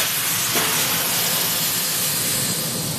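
Cargo ship engine starting up on a freighter travelling from Basel toward France, heard as a loud, steady, broad hissing roar with no distinct separate events.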